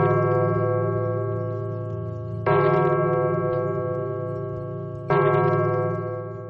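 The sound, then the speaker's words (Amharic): A church bell tolls the final bell, struck three times about two and a half seconds apart; each strike blooms into a rich, harmonic ring that slowly decays before the next, with no voices. “የመጨረሻው ደወል ተደወለ።”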